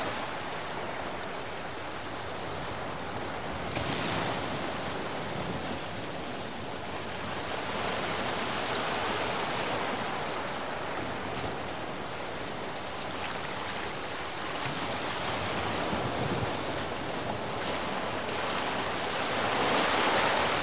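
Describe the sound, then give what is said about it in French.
Ocean waves washing onto a sand and pebble shore form a steady, broad hiss that gently swells and recedes over about twenty seconds, with no voices. “Comme rincé par l'immensité de l'océan, de la mer qui s'étend devant toi.”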